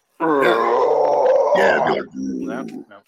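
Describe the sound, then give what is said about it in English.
A voice imitates a death metal growl: a long, rough, guttural sustained tone, then a shorter, lower growl after a brief drop. “Jerry Lynn's theme song, I used to always copy like the death metal growl”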